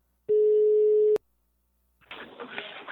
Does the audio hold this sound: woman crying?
no

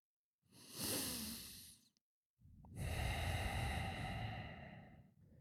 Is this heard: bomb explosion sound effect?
no

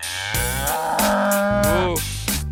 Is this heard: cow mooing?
yes

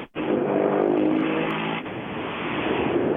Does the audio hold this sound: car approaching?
yes

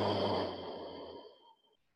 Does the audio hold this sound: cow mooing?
no

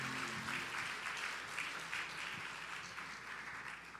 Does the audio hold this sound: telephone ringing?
no

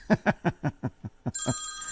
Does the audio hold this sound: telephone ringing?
yes

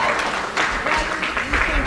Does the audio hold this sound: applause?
yes

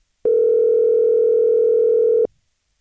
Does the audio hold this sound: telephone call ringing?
yes

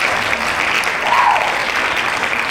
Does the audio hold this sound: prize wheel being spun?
no

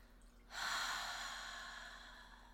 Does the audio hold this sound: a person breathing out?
yes

